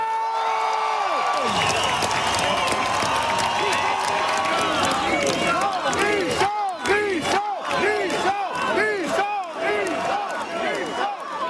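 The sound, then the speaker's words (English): Fans cheer and whoop as a singer comes onto the stage on a Saturday night at the closing show of a music festival. A dense, sustained crowd roar carries many sharp rising-and-falling whoops and shouts that grow busier in the second half. “Those are fans welcoming Richard Desjardins onto the stage on Saturday night in Roy Miranda.”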